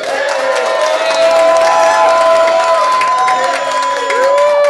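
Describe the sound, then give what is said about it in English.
Cheering from a room full of Christ-following business leaders at a roundtable, welcoming listeners with loud, sustained whoops and crowd noise that holds steady for the whole stretch. “We've got a room full of Christ-following business leaders today here at a Truth at Work roundtable. Folks, could you all help me in welcoming our listeners here at Bottom Line Faith on the count of three? One, two, three.”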